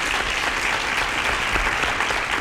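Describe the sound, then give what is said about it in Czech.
Applause from a quiz show audience after a correct answer: dense, steady clapping that holds at an even level for its whole length, with no voices on top. “Potlesk letí pro vás.”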